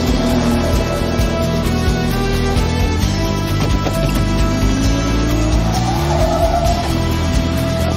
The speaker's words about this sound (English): Battle for the lead is being raged as the number 98 Ford makes an incredible late surge.